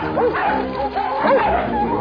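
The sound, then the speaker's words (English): A dog barking at a truck: a few sharp, yelping barks over background noise, fairly loud and irregularly spaced across about two seconds. “What is with you, dog? You think this truck is in heat or something? Get out of here!”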